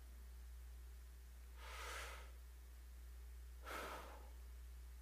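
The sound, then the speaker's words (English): Faint deep breathing: two soft, airy breath sounds spaced a couple of seconds apart, rising briefly above a quiet background of hiss and low hum. “And that was a deep breath.”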